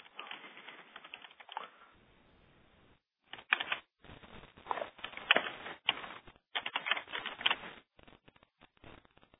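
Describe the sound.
Rapid keystrokes on a computer keyboard while a problem description is typed: many crisp clicks in uneven bursts, separated by a few short pauses, with no voices.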